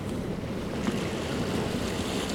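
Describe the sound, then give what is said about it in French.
The waves of a rising tide, at a high tidal coefficient, surge as a continuous, even rushing roar of surf. The sound stays steady with no clear breaks and no voices. “Le son que vous entendez c'est celui de la marée montante.”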